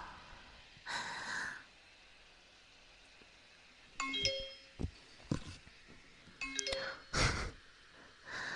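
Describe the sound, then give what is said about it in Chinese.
Two short phone message chimes sound a few seconds apart, each a quick cluster of clear stepped tones. Breathy snorts and huffs come before and between them against quiet background hiss. “谁给我发消息啊？”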